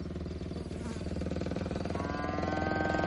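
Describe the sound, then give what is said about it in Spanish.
A motorcycle approaches at high speed on a curving road where cows stand in the roadway, a dense, steady engine roar with a higher whining tone joining in over the final second. “moto se acerca a gran velocidad.”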